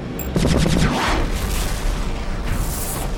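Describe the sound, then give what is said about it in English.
Space fighters firing on an Orion freighter under attack: a loud, continuous barrage of blasts and whooshing sweeps over a deep rumble, dense and chaotic throughout. “There's a freighter under attack! He's right. Looks like an Orion freighter being attacked by a triad of fighters.”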